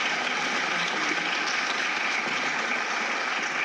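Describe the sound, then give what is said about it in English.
Audience applause welcoming a speaker at a community education event, a dense, steady clatter of many hands that holds at an even level from start to finish with no voices over it. “Please join me in thanking Christine Cousins MP.”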